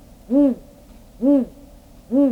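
A male saw-whet owl gives its territorial call: three clear, evenly spaced hoots, each a short mellow whistled note that rises and falls slightly in pitch, separated by pauses of roughly a second.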